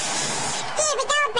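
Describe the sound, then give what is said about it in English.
Air hisses out of a balloon in a steady, breathy rush, then a voice speaks. “Give me that balloon. I'll show you how I celebrate.”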